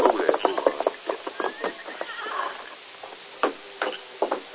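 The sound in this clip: Hoofbeats of a horse ridden away at evening from a cafe office, many irregular clopping thuds, dense and fairly loud at first, then thinning into scattered gaps toward the end.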